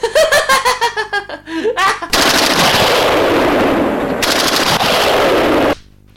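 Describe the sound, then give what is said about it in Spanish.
A bombardment sound effect of rapid machine-gun fire and explosions forms a loud, dense, roaring barrage that cuts off abruptly. It is preceded by a run of short, rhythmic voiced pulses. “¡El bombardeo!”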